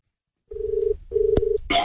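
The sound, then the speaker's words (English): Telephone dialing tones as a call is placed: two steady beeps of the same pitch separated by a short gap, followed by a brief burst of noisier sound. “Let's dial now at 8 minutes after eight on radio station 3AW.”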